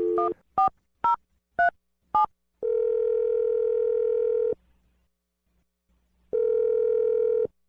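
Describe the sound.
A telephone number is dialed: five quick keypad tones, then a long steady tone, a stretch of silence, and a second long matching tone.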